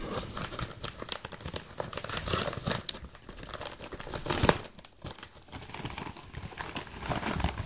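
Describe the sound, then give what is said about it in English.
Crinkling and tearing of a package wrapper as it is ripped open, with many irregular crackling bursts and rips running steadily for about eight seconds and no talking. “I think you can go ahead and open it now. Woo! I'll make a whole bunch of opening noise.”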